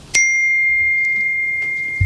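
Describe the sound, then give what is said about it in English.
A phone notification chime rings once, a bright, clear ding whose steady high tone holds and fades only slightly over the next two seconds. “A notification popped up on the top of the screen, simply titled C&A Application.”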